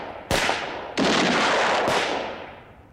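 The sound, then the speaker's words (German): Three loud gunshots ring out as someone tries to flee. Each is a sharp crack, and the second and third are followed by a long, ringing decay. “Klar schießen die. Die müssen doch schießen.”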